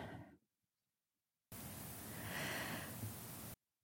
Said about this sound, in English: So taking a nice breath in.